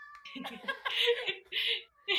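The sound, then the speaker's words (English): A cat meowing with a whiny, baby-like cry: a few drawn-out, wavering calls in quick succession, fairly loud and alone with no talking. “Oh, that's my cat. It sounds like a baby.”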